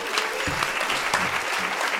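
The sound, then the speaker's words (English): Audience applause in response to an answer, a dense, steady wash of many hands clapping that holds at an even, fairly loud level for the full two seconds, with no talk over it. “Can we give a round of applause for that answer?”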